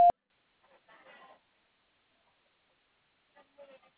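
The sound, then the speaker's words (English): A voicemail tone: one short, loud, steady beep at the very start, followed by near silence with a few faint, brief rustles. “Your call has been forwarded to voicemail. Please leave a message after the tone.”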